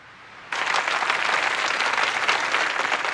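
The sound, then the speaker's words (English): A crowd applauds outside Westminster Abbey after Earl Spencer's speech at Diana's funeral. Dense, steady clapping starts abruptly after a brief quiet moment and holds evenly to the end. “Earl Spencer steps from the podium while outside people applaud.”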